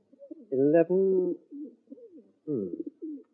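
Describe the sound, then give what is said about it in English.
Birds cooing, plump birds kept for sale as pie filling: a few low, throaty, pigeon-like coos in two bursts, the first longer and fuller, separated by a short pause. “Let's see, how many birds do you have?”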